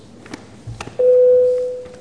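A parliament chair's signal before a vote: a single steady electronic tone sounds for under a second and then fades out.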